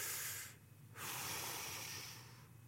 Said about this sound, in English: Everybody, inhale, exhale, right?